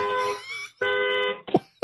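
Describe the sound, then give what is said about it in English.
A car horn sounds a celebratory honk for the Dallas Stars reaching the Stanley Cup Finals: two long, steady, buzzing blasts of equal pitch separated by a brief gap, then a short, sharp burst at the end. “I didn't know if it was a celebratory honk or you tripped your car alarm.”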